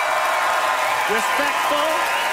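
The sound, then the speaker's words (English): Polite audience applause at a live show, a steady broad hiss of clapping that holds at one level throughout, with a voice talking over it in the second half. “Respectful applause.”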